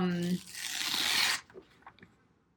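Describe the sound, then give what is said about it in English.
Handwriting on paper, a pen scratching in a continuous dry rasp for about a second, then trailing off into a few faint, scattered strokes. “Are you writing me love notes? No, I'm not writing you love notes. No, okay. I'm writing.”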